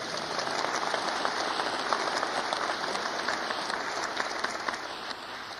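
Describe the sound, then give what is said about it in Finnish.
An audience applauds: dense, even clapping that fills the whole clip at a steady level, with no voices over it. “Taputetaan sille.”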